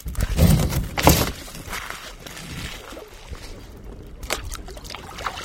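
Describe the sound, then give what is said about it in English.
A kayak paddle dips in and out of the water from a bright red boat, making a few soft, breathy splashes and trickles at an irregular rhythm, with quieter watery sounds between the strokes. “His kayak paddle skillfully dips in and out of the water. Left. Right.”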